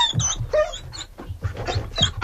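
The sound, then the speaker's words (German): Dogs barking and yelping at a dinner held for forty dogs in Paris: many short, overlapping barks and whines in an irregular, busy stream, moderately loud throughout. “Da sind nämlich 40 Hunde, ja, ist gut, aus jetzt, zum Dinner eingeladen.”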